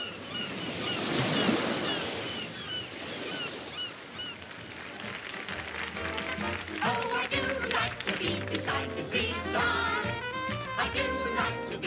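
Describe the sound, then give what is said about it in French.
Waves surge and wash along the Brighton seafront, a dense, steady roar of surf with wind noise. A layer of tonal sound joins over the water in the latter half. “Direction maintenant l'attraction principale de Brighton, son bord de mer.”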